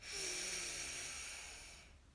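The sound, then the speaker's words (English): One deep breath is drawn in and let out during a breathing exercise, a faint, steady, airy hiss that tapers off at the end. “So deep breath in and out.”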